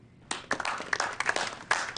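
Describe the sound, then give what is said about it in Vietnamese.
Audience applause after a speech ends: sharp, irregular hand claps start after a quiet moment and continue to the end, with several louder peaks. “Mọi người vỗ tay lớn lên đi nào. Nếu làm tốt thì phải khen ngợi họ mới đúng chứ.”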